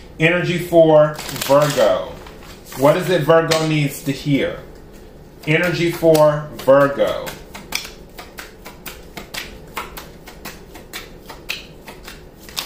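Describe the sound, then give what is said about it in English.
Shuffling of an oracle card deck: a long run of many crisp, papery clicks and riffles, fairly loud, following a stretch of speech and continuing alone to the end. “I'm going to take an Angels of Abundance Oracle card right quick.”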